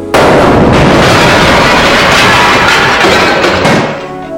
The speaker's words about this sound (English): Boss ship has been destroyed. Now this is going to be a racket. Here we go. Now this isn't a continuous sound, but here we go.